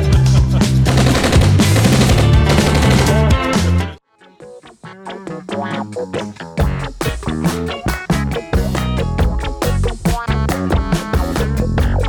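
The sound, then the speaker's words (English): Machine gun fire sound effect: loud, dense, rapid bursts of gunfire, a brief break partway through, then more fast, sharp shots in uneven runs. “You want the gun? I want the gun. Hold on, I'm going to give you the gun.”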